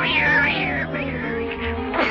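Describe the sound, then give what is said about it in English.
A startled cat yowls in drawn-out, wavering cries that bend up and down in pitch. The noise stays fairly loud and constant for about two seconds. “The cat's fur stands on end and he jumps out of the window and falls to the bottom of the tower.”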